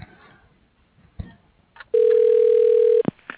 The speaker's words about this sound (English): Your call is being transferred to the receptionist.